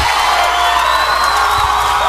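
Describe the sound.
A crowd cheers and applauds after a music track, a dense, steady roar of voices and clapping that holds at an even level for the whole short stretch without distinct separate claps.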